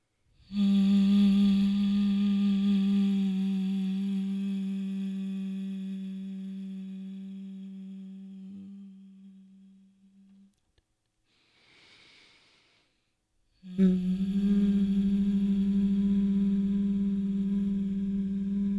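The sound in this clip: Honeybee breath humming: a long, steady, low hum on the exhale, with the tongue resting against the front teeth, slowly softening, then a short audible inhale through the nose before the hum starts again strongly.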